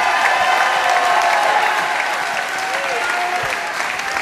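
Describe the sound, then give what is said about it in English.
A church audience at a revival service claps and shouts together in a steady, dense, loud wash of applause with crowd voices mixed in, continuing without a break. “if you know the Holy Ghost, clap your hands and give God a mighty, mighty shout.”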